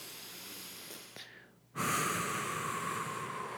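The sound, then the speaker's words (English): A deep breath taken during a guided hypnosis session: a soft, airy hiss that dips briefly, then swells into a louder, sustained rush of breath lasting about two seconds. “now take a nice deep breath.”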